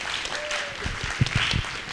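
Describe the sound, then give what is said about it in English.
Audience applause welcoming a guest speaker at a Tree of Life gathering, a brief spell of clapping with a few sharper, louder claps near the middle. “So let's give a massive round of applause, massive Tree of Life welcome to Greg Fritz.”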